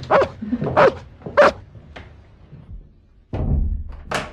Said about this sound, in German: Ist der Hund auch nicht bösartig? Nein, nicht in meiner Gegenwart, aber komm doch heran.